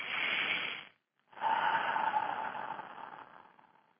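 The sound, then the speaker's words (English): A deep breath: two long, airy rushes of breathing separated by a brief silent pause, steady and fairly loud, with no talking. “let's take a deep breath and let's do it again.”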